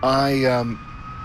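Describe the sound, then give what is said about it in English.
An emergency vehicle siren passes an intersection in Whitby, Ontario, one loud wail swelling and dipping in pitch before dropping away sharply to a faint steady tone. “maybe I'll let this go through because it could be hard to edit around the emergency vehicle.”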